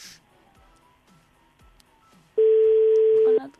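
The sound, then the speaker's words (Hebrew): A loud, steady telephone tone lasting about a second as a line is opened to dial a live on-air call, preceded by near quiet with faint low thumps. “אנחנו נחייג ממש בעוד מספר רגעים, אתם תצטרכו לענות לי”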